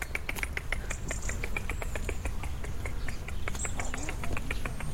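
A European robin calls outdoors on a small dairy farm in Seine-Maritime. Its calls are many quick, sharp ticking notes repeated in an irregular stream over a steady low background rumble.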